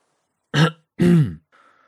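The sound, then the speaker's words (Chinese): A person deliberately coughs, clearing the throat in two short, gruff bursts, the second a little longer and deeper, followed by a faint trailing breathy sound. “刻意咳嗽了两声。”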